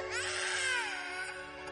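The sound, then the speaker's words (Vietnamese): Mournful crying, a high wavering wail with strong harmonic glides that sink lower midway, loud and sustained for under two seconds with no talk. “đã nghe thấy tiếng khóc ai oán vang lên”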